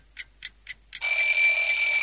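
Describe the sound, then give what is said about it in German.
An alarm clock goes off with a few short, evenly spaced electronic beeps, then breaks into a loud, continuous high-pitched ring that keeps sounding to the end. “Der Wecker weckt Annika unsanft aus ihren Träumen.”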